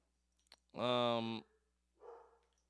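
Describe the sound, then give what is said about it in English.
A dog barks once, a loud, drawn-out tonal bark lasting over half a second, followed by a fainter, shorter sound. “So even the dogs are not buying that.”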